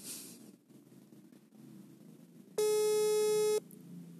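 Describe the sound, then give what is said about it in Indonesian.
A ringback tone plays while a phone call is placed, as one loud, steady electronic tone lasting about a second that stands out from quiet surroundings. “Kita akan mencoba menelponnya. Apakah akan diangkat? masih belum diangkat.”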